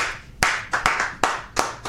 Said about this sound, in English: Hey, let's clap it up, guys.